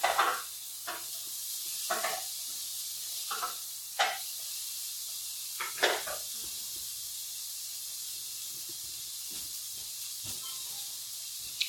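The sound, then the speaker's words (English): Onions sizzle in a hot pan with a steady bright hiss. A few sharper bursts rise above it, like stirring or food shifting in the oil. “onions making some noises, cool it onions.”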